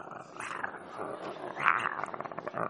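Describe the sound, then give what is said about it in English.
A voice imitates a caged dog growling: a low, rough, sustained snarl that turns into rapid rattling pulses toward the end, faint throughout. “the dog in the cage just growling”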